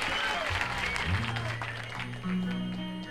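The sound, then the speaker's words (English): An audience claps along to the beat on the one and three, a steady stream of hand claps mixed under ongoing music with sustained low tones. “I love that everybody claps on the one and three, not the two and four.”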